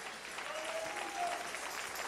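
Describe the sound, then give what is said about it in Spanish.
A church audience applauds during a service, a faint, even wash of clapping that runs on without a break. “Dale un aplauso al Rey.”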